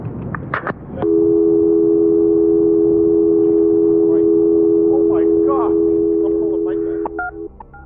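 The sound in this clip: A steady telephone line tone drones for about six seconds after the caller hangs up, loud and unbroken, with voices talking over it and a few short beeps near the end.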